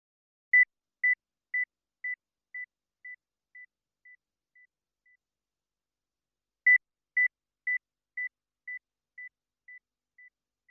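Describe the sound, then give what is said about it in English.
Pure high test tone in short beeps, ten in a row, each about 5 dB quieter than the last until it is barely audible. After a pause the same fading series starts again. “You will hear a 2000 Hz tone in 10 decreasing steps of 5 decibels.”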